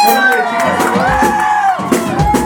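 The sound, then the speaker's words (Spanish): A crowd cheers with whoops and shouts, loud and continuous, with high voiced cries wavering over a noisy background. “Un abrazo también a Rom. Aplauso a las blancas.”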